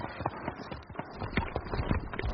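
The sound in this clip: Horses gallop along a winding trail, hooves drumming in many quick, irregular thuds that blur together at a fairly faint, even level.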